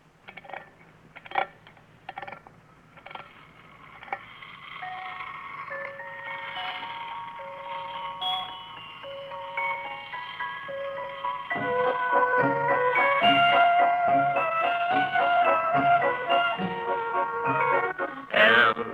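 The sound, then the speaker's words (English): A wind-up toy merry-go-round gives a few scattered clicks at first, then plays a tinkling, music-box-style melody that grows fuller and louder as it spins. “it's a little toy merry-go-round. Well, what do you want that for? Well, now, here, let me show you. First, you wind it up, and then you release the lever, and it spins around and plays music.”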